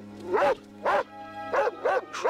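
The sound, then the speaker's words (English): Doberman guard dog barking: about five deep, resonant barks in an uneven rhythm, the last ones coming closer together. “the Doberman guard dog charges towards him”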